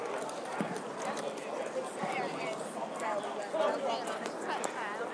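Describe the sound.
A horse gallops along a road, its hooves clattering in a quick, steady clip-clop under continuous talking.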